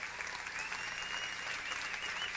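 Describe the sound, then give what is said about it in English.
A church audience applauding as new members come down to the altar, a soft but steady wash of clapping that continues evenly throughout. “Let's give them a hand. They come on down.”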